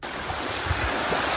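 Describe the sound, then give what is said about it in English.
Raging waters of the Tubatse River surging downstream make a dense, unbroken roar with deep low rumbling and a wind-like hiss, steady throughout and without voices. “That is the sound of the Tubatse River with its raging waters surging downstream.”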